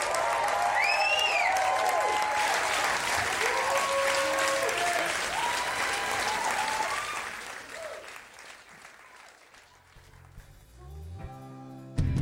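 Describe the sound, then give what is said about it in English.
Applause and cheering for musician Aaron Magner after a live set, thick clapping laced with rising and falling whistles that gradually thins out and fades to near quiet over about ten seconds. “Make some noise for Aaron Magna.”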